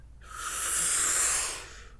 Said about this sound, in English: I'm going to need you to take a deep breath with me. You cool with that? I can do that. Okay, ready? In.